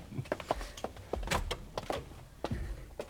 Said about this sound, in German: Mach die Tür auf. Sofort, Madame.